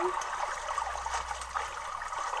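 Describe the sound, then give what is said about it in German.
Steady trickling and gurgling river water as a character swims in a Zelda video game, a continuous even wash of liquid sound with no voices. “Wir schwimmen am linken Ende des Flusses und gehen geradeaus zur Zitadelle der Zeit.”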